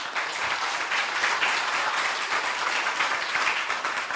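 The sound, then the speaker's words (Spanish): Audience applause at a university question-and-answer session after a presentation, with dense, even clapping that fills the whole stretch at steady loudness. “Así es que les pido un aplauso para ellos.”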